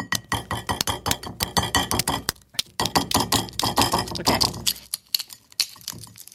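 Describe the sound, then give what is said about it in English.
Brittle crackling and sharp clicking as the shell of a light gray-bluish egg with darker spots is cracked and peeled, a dense, irregular run of many quick taps and crunches that grows sparser toward the end. “The outside of the egg, I would say, is like this light gray bluish hue with some darker spots. So I'm gonna crack mine.”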